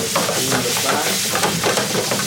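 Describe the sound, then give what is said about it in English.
A spatula scrapes the bottom of a pan of spaghetti as it fries, giving a continuous sizzle broken by repeated scratchy strokes. “So now he's really using the spatula to like scrape the bottom of the pan. The spaghetti is starting to stick to the pan, which is good, right?”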